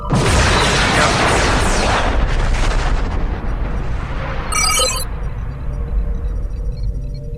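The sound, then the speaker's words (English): Photon torpedoes explode and destroy a starship in a space combat video game: loud, dense booming blasts fill the first few seconds, the rumble thins out, then a short bright electronic tone sounds over a lingering low roar. “IKS Bortus is attacking USS Sovereign. IKS Bortus firing photon torpedoes.”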